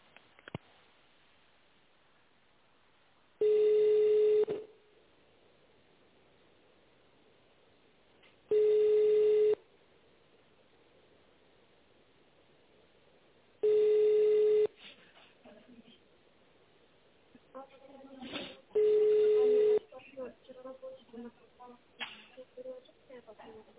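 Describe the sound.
Ringback tone of a telephone line ringing while the caller waits for a company to answer: four steady one-second tone bursts, evenly spaced about five seconds apart, with voices talking after the line is picked up near the end.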